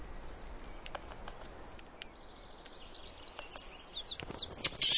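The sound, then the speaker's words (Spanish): Birds call through a wide forest, scattered bright chirps and tweets over a soft, steady background hiss. The calls grow busier and louder toward the end. “Pero se percibe cierta agitación en el paraíso de las aves.”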